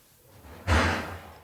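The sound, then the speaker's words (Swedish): A kitchen drawer full of porcelain is pulled open, producing one heavy sliding thump with a low rumble that swells quickly and then slowly fades, with no voices. “Här är ju också en låda, den som kaffekopparna. Nej, den som porslinet står i. Lyssna nu här.”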